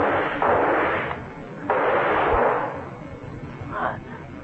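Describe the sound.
Gunshots in a radio mystery drama, fired at a leech creature that has killed a man. Two loud, rushing bursts of noise, each lasting under a second with a brief gap between, are followed by a fainter, shorter third burst.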